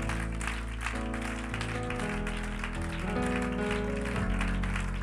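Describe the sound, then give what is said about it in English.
A church audience claps its hands in a steady rhythm, many claps running through the whole clip over loud, sustained music. “If you believe that, would you clap your hands to the Lord?”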